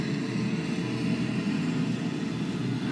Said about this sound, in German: Jetzt hören wir auch dieses helle Signal, das ist Kavitation am Propeller. Jetzt ist es direkt über uns und jetzt fährt das Fahrzeug weg.